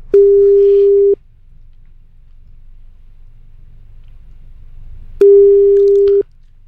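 Telephone ringback tone heard while placing a call: two steady, mid-pitched beeps about a second long each, separated by roughly four seconds of near silence with a faint low hum.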